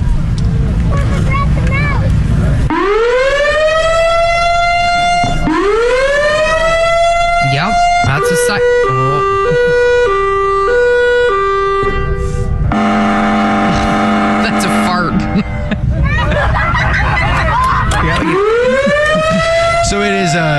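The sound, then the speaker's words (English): Loud sirens mounted on trailers blare at a siren convention in Wisconsin, several wind-ups sweeping up and settling into sustained wails, with a stretch of alternating stepped two-tone blasts, all continuous and overpowering with no pause. “there are sirens that come in on the back of trailers. Everybody in the videos are wearing hearing protection because it's so loud. This is what it sounds like at Siren Con”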